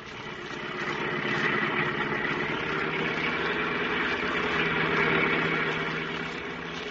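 Car engine running while the car is driven, a steady, fairly faint low drone that swells slightly and holds even throughout.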